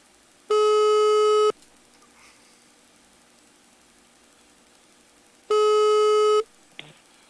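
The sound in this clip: Ringing tone of an outgoing telephone call, two long, steady buzzing tones of about a second each separated by a quiet hiss, followed by a brief click.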